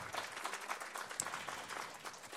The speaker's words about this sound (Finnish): nyt isoimmalla aplodit sitten näille vapaaehtoisille.